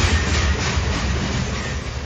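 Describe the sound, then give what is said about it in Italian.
A Trenitalia regional train pulls into platform 1 of a station, making a steady, loud rolling rumble with a broad hiss of wheel and track noise throughout, and no voices. “regionale 55-60 di Trenitalia, proveniente da Rovigo, è diretto a Verona Porta Nuova, delle ore 5.32, è in arrivo al binario 1. Attenzione! Allontanarsi dalla linea gialla.”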